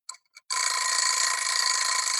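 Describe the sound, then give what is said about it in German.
An egg timer gives a couple of short clicks, then rings with a continuous bright metallic bell rattle that holds at an even loudness to the end. “Ich habe die Eieruhr hier nebengestellt, damit ich so ein bisschen auf die Zeit achte”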